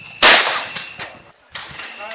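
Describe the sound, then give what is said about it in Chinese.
Shotgun fire at the Liuying sports shooting range in Tainan. One loud, sharp blast is followed by several fainter cracks and clanks, with quieter gaps between them. “现在我们来听听散弹枪射击的声音。”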